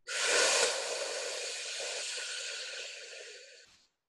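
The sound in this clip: A long, airy breath drawn through the mouth during a guided breathing exercise, heard alone as one steady, breathy hiss that swells at the start and fades out after about three and a half seconds.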